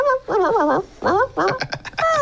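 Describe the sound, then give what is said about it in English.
A person imitates a dog, talking in mock dog language with several warbling, whiny yips and whimpers in short bursts. “Okay, let me tell Zara in dog language.”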